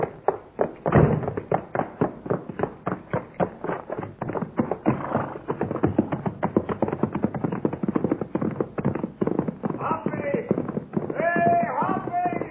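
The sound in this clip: Hooves of the horse Topper clip-clop in a fast, steady riding rhythm of many sharp beats throughout, while voices speak over the hoofbeats near the end.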